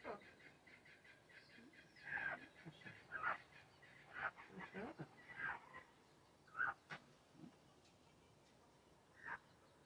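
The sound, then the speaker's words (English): Chickens cluck around a white hen with a small chick, in a series of short, faint, irregular calls spaced out over a quiet background. “look, you got a little chicken. Oh, yes. The white one's got a little chicken with it.”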